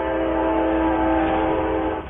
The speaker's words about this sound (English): Look out, here comes the train.